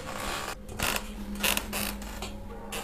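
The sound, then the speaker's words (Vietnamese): A wooden wardrobe door slowly creaks open late at night, heard as faint, drawn-out grating creaks and scraping bursts over a low steady hum. “chỗ cái tủ quần áo của cô Thao, cánh cửa tủ gỗ khẽ từ từ mở ra, vang lên trong đêm khuya vắng đến rợn cả người.”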